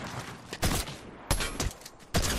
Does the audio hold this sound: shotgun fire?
yes